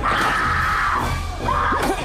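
A woman's loud, shrill screaming during a knife attack in a horror film scene. Two long, piercing screams follow one another, and the second wavers in pitch.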